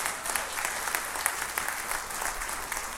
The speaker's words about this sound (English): would you put your hands together and welcome the online congregation joining us today